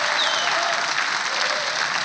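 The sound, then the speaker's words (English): A church audience claps in sustained, dense applause that stays loud and steady throughout, a wash of many hands with no pauses and no clear voices standing out. “let's give God a big clap of praise right now. Come on, let's lift the roof off this place.”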